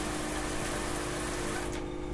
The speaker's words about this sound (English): Alexa, tell the Delta to turn off the water.